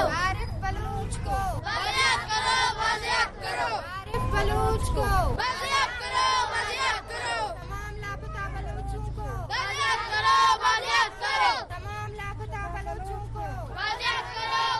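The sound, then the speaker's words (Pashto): A loud, dense crowd of many voices at a protest demonstration outside the Quetta Press Club, organised by a missing-persons group with many men and children taking part. Overlapping talk and calls continue throughout, with several louder vocal surges. “دغه احتجاجي مظاهرات د کوټې د مطبوعاتو کلب مخې ته د بيدرکسو خلګو د سازمان له لوري وسوه.”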